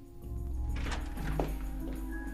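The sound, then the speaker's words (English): An outer door bursting open, heard as a brief dull thud over a steady tonal hum that continues before and after the impact. “bursts through the outer door”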